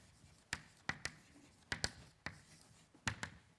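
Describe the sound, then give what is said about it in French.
Pen or chalk writing during a physics lecture on quasi-momentum: many sharp, crisp strokes and taps in an uneven rhythm, standing out clearly against a quiet background with no talk. “ce nombre θ, je vais l'écrire sous la forme”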